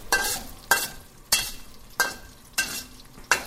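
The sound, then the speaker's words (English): Whole Sichuan peppercorns and dried chilies being stir-fried in hot oil, six brisk scraping strokes in a steady rhythm, each a loud rush of sizzle that fades before the next. “Okay, a little bit of Sichuan peppercorn, whole, and some whole dried chilies. Move that around pretty quickly.”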